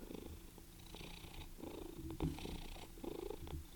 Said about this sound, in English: She's purring kind of loudly.